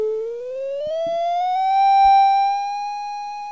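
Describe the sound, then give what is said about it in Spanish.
An iPhone light detector app emits an electronic beeping tone, here one continuous, harmonic-rich whine that rises in pitch over the first second and then holds steady, with a few faint handling taps beneath it. “¿Lo ven? Ahí está el famoso pitido. Si yo levanto el iPhone, como la luz de mi habitación está encendida,”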